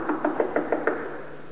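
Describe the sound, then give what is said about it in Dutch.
Knocking on a door: six quick, evenly spaced raps in a steady rhythm, fairly soft, followed by quiet. “En ze kloppen.”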